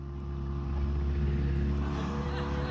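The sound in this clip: A boat motor, recently repaired after trouble, cruising on a lake: a loud, steady engine drone with a deep rumble that holds even throughout, with no voices.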